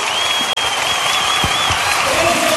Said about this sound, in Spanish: aplauso